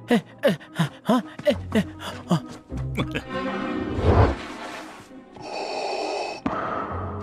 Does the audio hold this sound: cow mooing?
no